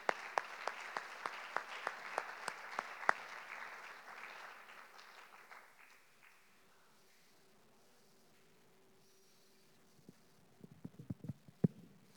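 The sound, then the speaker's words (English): An audience at a theology conference applauds to welcome a speaker presenting on the Holy Spirit. The steady clapping fades out after about five seconds, then a few faint knocks are heard near the end. “So would you give a good hand and welcome Brother Tim Hadden today as he comes to present on the Spirit.”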